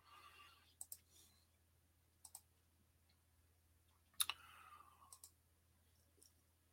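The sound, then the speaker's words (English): Computer mouse clicks while scrolling a web page: faint, sharp clicks that mostly come in quick pairs, spaced irregularly over several seconds of near silence. “Let me scroll back down here. It always refreshes and goes to the top when I click off of it.”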